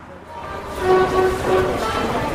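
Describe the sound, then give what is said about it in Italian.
Hungary's yellow Line 1 metro train, an underground line opened in 1896, rumbles along. Short tonal whines or hoots swell up a few times over the steady noise. No clear talk is heard. “Prendo il metro giallo, la linea 1”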